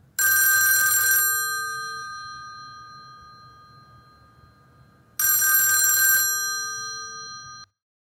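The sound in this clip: An old-style telephone rings twice on an incoming call. Each ring is a bright, jangling bell burst of about a second that rings out and fades, with a pause of several seconds between the two.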